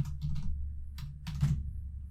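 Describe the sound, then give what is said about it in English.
Computer keyboard typing as the word pattern goes into a Canva search bar: a few brief clusters of light key clicks over a low steady hum. “In the search bar, you're going to type the word pattern.”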